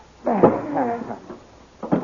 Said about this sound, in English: Now open that door, Dale. Yes. Now we will put him in that closet.